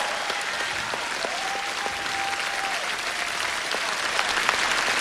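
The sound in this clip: An audience applauds at the White Cane international charity festival concert. The thick, even clapping carries on for the full five seconds at moderate loudness, with no speech over it.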